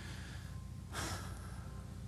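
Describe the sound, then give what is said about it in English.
A group takes a deep breath together on a count of three during a prayer, heard as one short, soft, breathy inhale rising briefly out of a quiet background. “So on the count of three, let's just take a deep breath and do that. One, two, three.”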